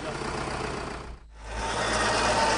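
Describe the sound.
A vehicle engine idles during farmland clearing work, a steady low rumble that drops out briefly near the middle, then comes back louder and holds steady.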